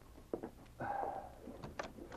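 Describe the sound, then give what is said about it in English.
A cabin door being opened, faint and quiet: a few small clicks surround a drawn-out creaking scrape. “opened the cabin door”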